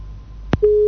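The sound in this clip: A telephone busy tone follows a caller's line disconnecting during a call-in: a short click, then a steady mid-pitched tone that holds to the end.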